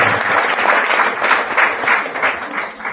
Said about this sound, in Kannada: Just ವಿಚಾರ ಹೆದ್ದ ಟೈಮ್ಗೆ ನಮ್ಮ ಪೂಜೆ ಗುರುಜಿಗಳು ಬಂದಿದ್ದಾರೆ ಚಪ್ಪಾಳೆ ಹೊಡೆಯೋದು.